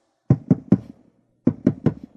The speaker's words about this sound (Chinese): 门外传来了急促的敲门声